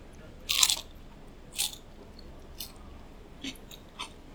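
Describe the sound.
Crunchy bites of fried food sound as five crisp, brittle crunches at an uneven pace. The first is the loudest and longest, and the rest are short, faint snaps.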